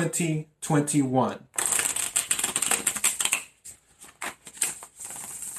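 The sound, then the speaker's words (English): Cards are shuffled and drawn from a tarot deck for a reading. Brisk papery riffling and snapping follow a brief stretch of talk, then thin into a few separate flicks with short gaps near the end. “So I'm going to pull 8 cards and we'll see what happens. I need 8 cards for Gemini for the energy of April”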